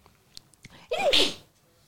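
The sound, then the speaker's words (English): A single sneeze bursts out loud and sharp after a few faint clicks and small breaths, its breathy blast rising quickly and then fading. “How are you going to help me with sneezing?”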